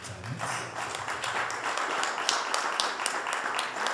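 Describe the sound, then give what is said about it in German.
Faint concert audience applause for the band's drummer, heard as scattered, crisp individual claps that grow a little denser toward the end. “Deswegen ein besonderer Applaus für unseren Schlagzeuger,”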